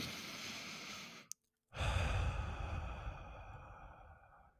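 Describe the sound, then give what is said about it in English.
Deep, slow breathing during a guided rest exercise: a long audible breath, a moment of silence, then a long, airy exhale that gradually fades away. “Take a few deep breaths with me.”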